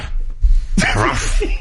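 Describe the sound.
A person imitates a dog's yap with their voice, giving one short, sharp, loud barking burst after a brief low rumble.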